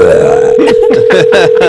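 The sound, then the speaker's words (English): A person forces a deliberately faked burp: several rough, guttural voiced bursts over a steady tonal hum, loud throughout with no other talk. “good fake burp. Was it real? No, it wasn't.”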